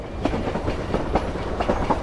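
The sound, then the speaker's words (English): A train rolls along the rails, with a passenger car at night, as a continuous rumbling roar with a rhythmic clickety-clack of wheels running throughout. “And the train is traveling along,”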